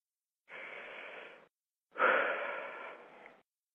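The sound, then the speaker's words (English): A deep breath drawn slowly and audibly, heard as two long, breathy rushes of air with a short pause between them. The second is louder and longer than the first, with no talk over them. “Take a breath.”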